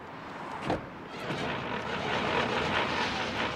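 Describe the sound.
A failing car's engine revs as the gas pedal is pressed: a broad, rough roar with a brief surge early on, then a louder, sustained drone that holds to the end.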